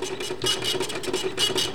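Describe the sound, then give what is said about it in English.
An old printer runs off mailing labels at a small daily newspaper, giving a faint, steady mechanical hum broken by many quick rhythmic buzzing pulses. “An old printer spits out the mailing labels for each day's paper.”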